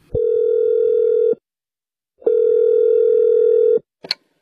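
Steady telephone tones sound as a call is placed to a renovation company about a collapsed kitchen ceiling: two long, even mid-pitched tones with a short gap between them, then a brief click at the end.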